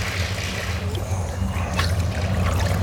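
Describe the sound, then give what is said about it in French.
Gurgling, trickling water as a plastic bottle with its base cut off is plunged under water, a steady churning wash with small sloshes throughout, over a low constant hum. “Et là, vous êtes en train de les enfermer, de plonger la bouteille sous l'eau.”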